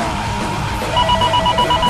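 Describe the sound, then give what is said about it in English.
A Nokia-style phone ringtone plays inside a song. Short, bright, repeated beeping notes come in about halfway through over a dense, steady music backing. “What is that? Nokia phone? Turn this shit off, dude.”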